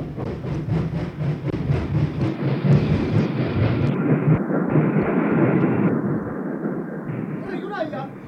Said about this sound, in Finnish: Miksi emme jo pysähdy? Pysähtyykö tämä juna ylipäänsä enää milloinkaan?